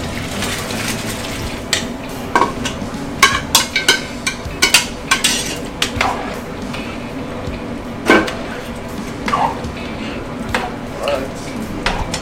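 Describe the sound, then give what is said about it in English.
Chopped potatoes, carrots, onions and broad beans go into a simmering oxtail sauce in a pot. Scattered clanks and knocks of utensils against cookware come at irregular intervals, with a voice talking at times in between. “So now we're gonna throw this in the sauce.”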